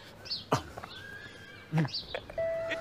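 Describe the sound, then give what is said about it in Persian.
A doorbell rung at a house door, heard as a faint, steady electronic tone held near the end, preceded by a few brief knocks and clatters and a fainter tone earlier. “دکتر برو زنگو بزن تو. برو”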